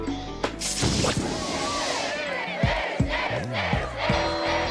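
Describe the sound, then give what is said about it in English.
A crowd cheers and yells in a scene from a Disney Channel movie, the shouts mixed with a few sharp crashing hits and swooping tones over continuous loud noise. “And with Myrna gone, everyone cheered.”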